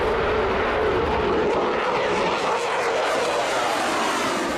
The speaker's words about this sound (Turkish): 2 adet Pratt & Whitney F-119 motoruyla görev yapan F-22 it dalaşında en iyi savaş uçağı olarak kabul ediliyor.